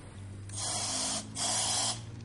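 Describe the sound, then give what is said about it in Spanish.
Compressed air hisses from the opened valve of a scuba diver's air tank in two bursts, each lasting well over half a second with a short gap between. The hiss is moderately loud over a faint low hum. “A su lado hay una bombona de aire de submarinista. Abre la válvula. La comprueba.”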